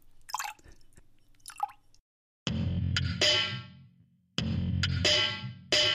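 Someone does a spit take, spraying a drink out of their mouth. A few faint wet drips and squishes come first, then several loud, sputtering sprays of liquid arrive in bursts, with no talking.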